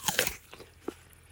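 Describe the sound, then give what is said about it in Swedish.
Crisp crunch of teeth biting into a Rubinola apple in an orchard: a loud snapping bite at the start, followed by a few softer crunching chews spaced out over the next second. “Här där vi står just nu, där har vi då rubinola och de blommade senare och jag måste säga att det ser faktiskt bättre ut än vad jag trodde att det skulle göra. Har du smakat på några av äpplena än så länge? Nej, men låt oss göra det.”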